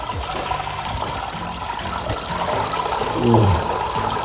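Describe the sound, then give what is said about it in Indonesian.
Wet squishing and trickling as grated coconut mixed with water is squeezed by hand to press out coconut milk. A steady liquid wash runs throughout and swells to a louder gush near the end. “Campur kelapa yang sudah diparut dengan air, lalu aduk sampai sari santannya keluar maksimal, baru kemudian diperas. Peras lagi ya.”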